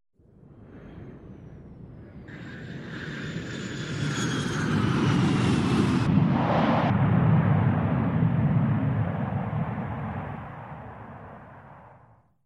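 Airplane engine drone aboard a passenger plane in flight: a steady low roar that slowly swells and then eases off, with thin high whining tones running over it for a few seconds in the middle.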